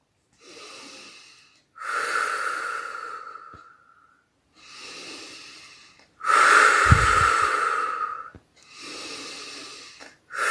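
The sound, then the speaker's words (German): Deep breathing during a guided meditation: three slow cycles in and out. Softer inhales alternate with longer, louder, slightly rasping exhales, separated by short silent pauses, with no talk. “atme dreimal tief ein und aus”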